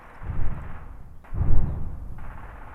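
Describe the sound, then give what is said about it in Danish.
Two deep, muffled booms of live-ammunition gunfire a couple of kilometres away, each a low rumbling thud that swells and fades, about a second apart, with no voices. “selv om de skyder med skarpt et par kilometer herfra.”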